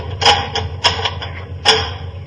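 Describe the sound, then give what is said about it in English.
Heavy metal bars are drawn back on a door with three sharp metallic clanks, lighter clicks and scrapes between them, irregularly spaced and fairly loud. “Now, if you'll help me draw the bars, Watson.”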